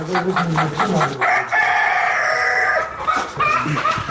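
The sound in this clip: A rooster crows among clucking hens on a poultry farm in Ghazni, Afghanistan. Busy clucking gives way to one long, loud crow, and softer clucks follow.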